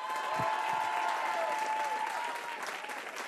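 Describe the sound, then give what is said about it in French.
An audience ovation for a singer entering a radio studio stage: sustained, even applause from many hands, holding at a steady level throughout and easing only slightly toward the end. “Alors s'il vous plaît, je voudrais une ovation pour celle qui va rentrer sur ce plateau. Elle s'appelle Isabelle Boulet.”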